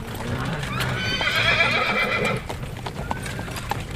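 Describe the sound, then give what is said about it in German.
Carriage horses on the road from Salzburg to Munich clip-clop steadily throughout. A long, loud whinny rises over the hoofbeats in the middle, and a voice is also present. “150 Kilometer sind, das haben wir gehört, mit der Kutsche von Salzburg nach München.”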